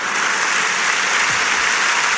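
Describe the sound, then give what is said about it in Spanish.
An audience at a political rally rises to its feet and applauds. The clapping is dense, steady and loud, with no voices above it. “Vuelven a ponerse de pie la inmensa mayor parte de los asistentes con este aplauso.”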